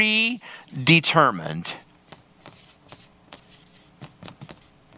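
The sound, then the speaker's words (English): Writing something down by hand: a voice speaks briefly, then soft, scratchy pen strokes follow in an irregular series of short marks. “I'm going to write it down low here.”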